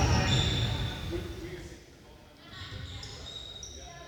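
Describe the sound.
A basketball bounces on a court during a recreational league game, the dribbles faint beneath people talking and a general hall murmur that fades midway and then rises again.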